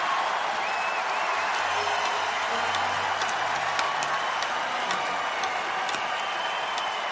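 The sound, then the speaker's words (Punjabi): Dense audience applause at a spoken gathering, an unbroken wash of clapping that holds an even loudness for the whole stretch, with no single voice standing out. “ਤਾੜੀ ਇਸ ਕਰਕੇ ਮਾਰਨੀ ਹੈ ਕਿ ਮਸਲੇ ਹੁਣ ਮੁੱਕ ਜਾਣ ਜਾ ਰਹੇ ਕਾਂ ਤੁਰੀਏ ਆਪਾਂ ਜ਼ੋਰਦਾਰ ਤਾੜੀ ਮਾਰੋ”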